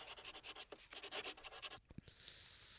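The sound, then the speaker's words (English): A pen scratches on paper as something is written down: a quick, fairly quiet run of many short rhythmic strokes, then a few softer rubbing sounds. “I'm just writing something down.”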